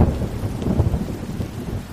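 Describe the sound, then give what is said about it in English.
Thunder rumbles low and deep through pouring rain, a rolling, uneven roar under a steady hiss of downpour, continuous for the whole moment. “For 40 days and 40 nights, rain poured over the earth and thunder roared in the sky.”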